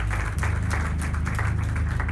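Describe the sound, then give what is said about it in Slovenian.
Applause, a busy patter of many hands clapping at a steady, even level throughout the short burst. “Aplavz. Bravo, hura, hura, hura.”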